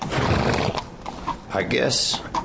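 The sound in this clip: A tired old mare whinnies and its hooves clip-clop while being ridden on a trail, with busy, overlapping hoof sounds and a loud neigh near the end.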